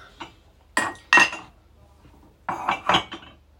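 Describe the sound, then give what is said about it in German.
Cups being put away in a cupboard: a few sharp ceramic clinks and knocks in two short clusters, separated by a quiet pause. “So, dann kommt die jetzt in den Schrank kann mir immer nicht merken, wo sich die Tassen befinden.”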